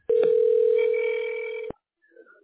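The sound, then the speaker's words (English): Telephone call being placed, with a single long, steady electronic tone that holds evenly and then cuts off sharply, followed after a short gap by a brief faint sound. “Okay, we're dialing the tax specialist.”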